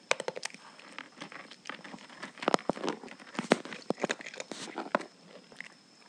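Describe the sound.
A dog chews dried sardine treats, making many sharp, crunchy bites and crackling chomps in an irregular rhythm, with no talking.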